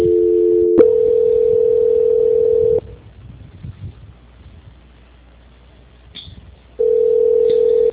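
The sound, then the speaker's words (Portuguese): A telephone tone plays during a call transfer: a steady, mid-pitched tone holds for nearly three seconds, then gives way to a quieter stretch of faint line noise before the same tone resumes near the end. “Vou transferir agora a senhora, tá? Parece que desocupou lá um ramal, tá? Tô transferindo.”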